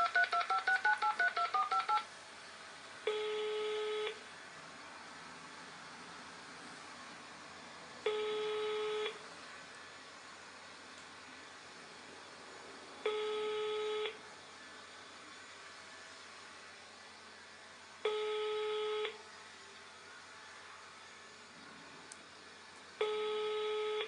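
Touch-tone phone dialing opens with a rapid burst of beeps, followed by five long ringing tones at even intervals with quiet pauses between them. The call goes unanswered, and a faint hiss runs underneath.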